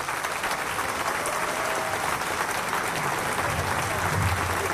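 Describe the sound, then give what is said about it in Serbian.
Thunderous applause from a packed summer stage at the opening of the first international film festival in Niš. Dense, steady clapping keeps a constant loud level without a break. “Prepuna letnja pozornica pozdravila je gromoglasnim aplauzom našu filmsku i muzičku legendu Snežanu Savić, koja je otvorila ovaj festival.”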